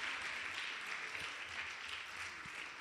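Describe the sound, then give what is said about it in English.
Church audience applauding, a dense, steady wash of clapping that holds at even loudness for about three seconds with no voices standing out. “Put your hands together for the Lord one more time.”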